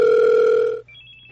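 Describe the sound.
Telephone line tone at the start of a prank phone call: a steady, buzzing low tone holds for under a second, then cuts to a thinner, higher steady tone.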